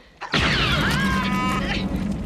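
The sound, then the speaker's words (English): Sci-fi blaster shot striking the ground and setting off a quake: a sharp onset followed by warbling, descending electronic tones over a low, rumbling roar that lasts about two seconds. “It started when my first shot hit the ground. Try it again.”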